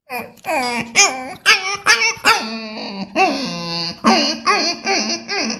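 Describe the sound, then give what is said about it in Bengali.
Puppy yipping and whimpering in many short, high, tonal cries with an uneven rhythm and one longer drawn-out whine near the middle, fairly loud and without talk over it. “প্রথম যখন বাচ্চা কুকুর তখন তার শব্দটা কিরকম হয়”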